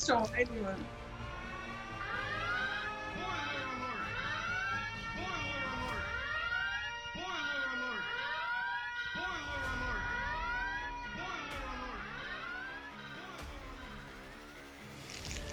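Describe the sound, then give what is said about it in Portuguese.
A spoiler alert sound effect of wailing siren tones sweeps up and down over and over, with several overlapping wavering pitches and a few sharp clicks, steady and moderately loud for about fifteen seconds. “solta, solta o alerta de spoilers aí demais”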